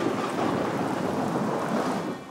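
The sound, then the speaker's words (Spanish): Thunder rumbles with steady rain during a storm under a black cloud, forming a dense, continuous wash of noise that holds at an even loudness throughout, with no voices. “Empezó a llover y hasta se oyeron grandes truenos.”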